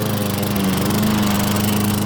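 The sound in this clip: A garden machine's engine runs steadily with a loud, continuous mechanical drone. A low hum holds an even pitch throughout, with no voices.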